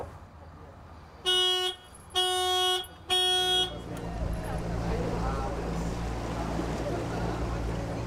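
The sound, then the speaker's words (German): A 15 hp motorboat moves through the city harbour of Rostock. Three loud, tonal toots come first, followed by a steady, low engine rumble mixed with water noise. “Mit 15 PS geht es erstmal durch den Rostocker Stadthafen.”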